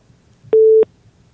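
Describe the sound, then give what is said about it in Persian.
A single short telephone busy-tone beep sounds after a caller's line is cut off, a steady mid-pitched tone standing alone between near silence. “خب تماس میگیرن اما بازم قطع میشه به هر حال.”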